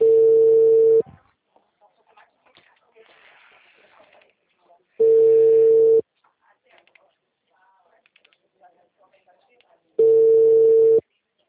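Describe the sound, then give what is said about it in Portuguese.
Telephone busy tone after a dropped call: three steady mid-pitched tones, each about a second long, spaced roughly four seconds apart, with faint scattered clicks in the quiet gaps. “a ligação do senhor caiu”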